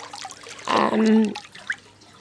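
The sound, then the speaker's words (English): A person swims in warm water, making one short burst of splashing and sloshing that settles into quieter trickling and dripping. “And yeah, I'm really enjoying my swim. And I'm now making my way back down to the other end.”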